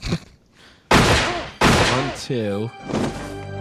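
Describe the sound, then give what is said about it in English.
Two sharp, loud gunshots ring out less than a second apart, each a sudden bang that cuts through shouting voices. “So, 2 shots in that gun.”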